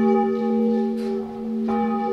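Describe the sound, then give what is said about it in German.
Old church bells, rescued before their church was blown up and now hung in a bell house beside a chapel, ring out. The sound is loud, sustained and resonant, with rich overtones and a couple of fresh strikes renewing the tone. “Vor der Sprengung wurden unter anderem die alten Glocken gerettet. Heute läuten sie im Glockenhaus neben der Versöhnungskapelle.”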